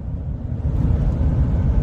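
A car driving down a street, heard from inside as a steady, loud low rumble of engine and road noise with no distinct separate events.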